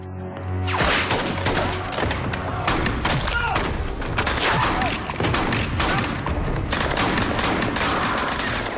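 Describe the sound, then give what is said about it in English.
Gunfire from a film scene in which a man is shot as he falls to the floor. A dense, loud volley of cracks and booms fires almost without a break for over seven seconds after a quieter opening moment. “Good measure, he shoots him while he falls down to the floor.”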